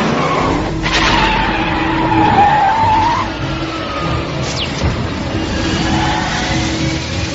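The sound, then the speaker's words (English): A car speeds over the limit with its tires skidding, a loud sustained squeal riding over the engine's roar before the engine carries on alone, quieter and steadier. “Caution, vehicle is over speed limit.”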